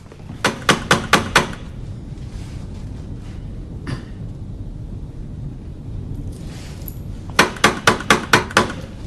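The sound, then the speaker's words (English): Knocking on an apartment door: a rapid burst of about five sharp raps, one lone knock a few seconds later, then another quick run of about six, each loud and crisp over a low, steady background hum. “Murray knocks at Dahlia's door.”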